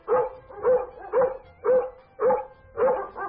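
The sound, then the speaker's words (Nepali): A dog barks six times in a steady, evenly spaced rhythm. Each bark is a loud, mid-pitched burst with a slightly whining edge, and no voices are heard. “स्याल गाउँको एकातिर जाँदा कुकुर अर्कोतिर गएर भुक्न थाल्थ्यो”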